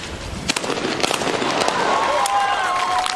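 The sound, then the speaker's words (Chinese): Shotgun blasts at a double trap clay-target shooting final: a couple of sharp, quick cracks early on over steady background noise. “再打一组低台双靶，这4枪将决出今天的冠军归属。”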